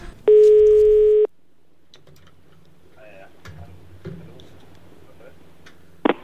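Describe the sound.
Telephone line signal as a caller comes on the line: a loud steady tone for about a second, then faint clicks and low line hum, ending with a sharp click.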